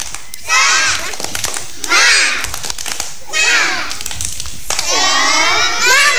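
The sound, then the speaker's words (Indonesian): A group of children performs the tepuk semangat clapping chant, shouting loud, rhythmic bursts of voices punctuated by sharp hand claps, with short pauses between each round. “Ayo sekali lagi, tepuk semangat.”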